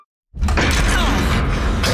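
A door is opened for a plumber who has come to check the shower: after a brief silence, a sudden loud mechanical rush with creaking starts and holds steady to the end.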